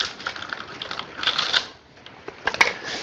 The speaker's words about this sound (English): Step 17. Tape cup.